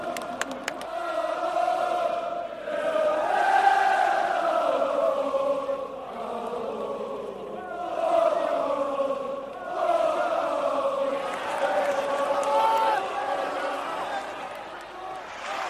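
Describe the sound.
Celtic football fans, some five or six thousand strong, singing together in a stadium at a match against Hamburg, a sustained massed chant that swells and eases in long phrases.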